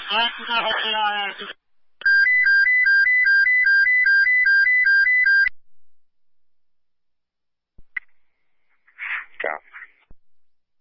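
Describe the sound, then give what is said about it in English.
Fireground evacuation tones sounded over a fire radio: a loud, steady electronic warble alternating between two pitches for a few seconds. Brief radio voices come just before and after. “Hit the evac tones. Everybody back out.”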